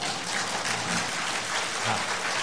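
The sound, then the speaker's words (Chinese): Applause from a church audience, a dense and steady patter of clapping that holds at an even level from start to end with no voices standing out. “我们的掌声是归给上帝哈，阿们。”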